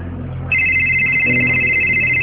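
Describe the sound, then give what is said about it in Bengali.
A mobile phone ringtone for an incoming call: a steady, bright electronic tone starts after about half a second and holds unbroken over a low, constant background hum. “এক minute দাঁড়া, phone দিছে।”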